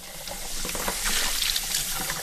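Water runs steadily at a kitchen sink as baby bottles are scrubbed out, giving a continuous hiss and splash with light rubbing and clatter throughout.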